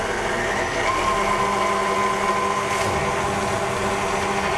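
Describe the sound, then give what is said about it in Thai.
An electric mixer beats a mixture at low speed, giving a continuous, even motor whir with a steady hum that holds at one level throughout. “เพราะฉะนั้นเราก็ใส่ลงไปแล้วก็ตีนิดเดียวนะครับเบา ๆเพราะอันนี้มันขึ้นละไม่ต้องใช้ความเร็วสูงแล้วเนาะ เดี๋ยวเราจะตีอีกรอบนึงครับแล้วก็ค่อยๆขยับขึ้นนะครับ”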